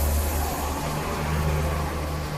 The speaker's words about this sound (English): That was a bus.